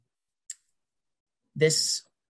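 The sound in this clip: A computer mouse clicks on a link to an interactive district map website. One sharp, isolated click sounds, followed after a pause by a short burst of voice.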